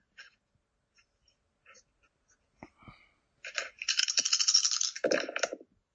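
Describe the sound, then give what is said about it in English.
Dice are re-rolled during a Fate tabletop role-playing game. A few faint scattered clicks come first, then a dense clattering rattle of dice tumbling on a surface that lasts about two seconds before stopping. “My dice have just not done me well tonight. Do you want to? This is kind of your wheelhouse. And do you want to invoke your high concept and re-roll that? I am re-rolling.”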